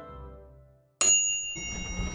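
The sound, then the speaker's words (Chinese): An apartment doorbell rings with a bright, high electronic chime after a moment of quieter low sound. A second tone follows shortly after the first and rings on to the end. “宋福坛按响门铃，只一会儿蓝河就来开门了”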